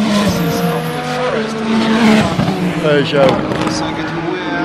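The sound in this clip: Racing cars, including a Peugeot and a BMW, roar past with loud, overlapping engine whines that shift in pitch, along with a faint tyre squeal, in a steady, continuous blare.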